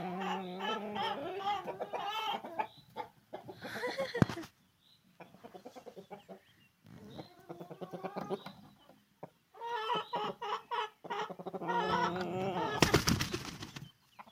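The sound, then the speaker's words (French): A big rooster crowing and clucking in a henhouse, harmonic calls coming in several bursts with short silent gaps, plus a few sharp noises. “Oh, ça c'était le gros coq.”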